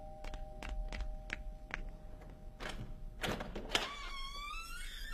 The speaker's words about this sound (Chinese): 开门去。